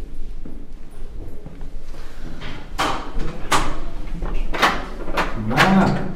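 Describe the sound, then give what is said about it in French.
A door being opened after it was found shut, giving a few clattering knocks and rattles of the latch and frame spread through the second half, fairly loud over a low background rumble. “C'est fermé, tu peux nous ouvrir,”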